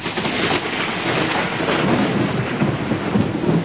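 Rain falling through an evening, a continuous dense hiss of drops that holds steady in level from start to end, with no voices.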